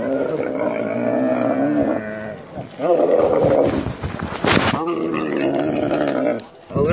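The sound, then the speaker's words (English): Camel groaning in the desert near the pyramids in Egypt: deep, rough, growling groans in several long bursts, loud and throaty with brief pauses between them. “Well, this is Moses. He's my camel, and he's taken me on a ride through the desert to see the pyramids in temperatures of 40 degrees. Well, camels are really grumpy,”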